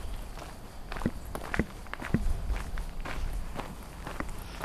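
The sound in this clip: Footsteps of hikers walking along a flat trail toward a pond: a quiet, steady series of soft steps in an uneven rhythm over faint background noise.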